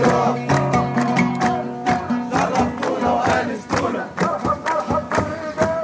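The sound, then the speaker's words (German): Protesters on Tahrir Square in Egypt chant rhythmically and musically, a dense mass of voices driven by regular sharp percussive hits. The beat and the calls pulse steadily from start to finish. “Also was man jetzt hier hören kann, sind Rufe, die mir entgegengeschallt haben, als ich auf den Tahrirplatz gegangen bin. Da haben ja damals über Tage die Demonstranten ausgeharrt”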